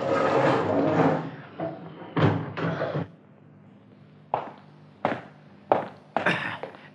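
A prison cell door in the Bastille being opened: a stretch of rattling clatter, then a series of heavy, dull thunks and knocks separated by quiet gaps.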